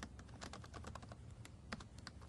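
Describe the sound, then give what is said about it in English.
Rapid typing on a new laptop keyboard: many quick, irregular key clicks in a dense, steady run, with no talking. “Still getting used to typing on this laptop keyboard. It's a new laptop.”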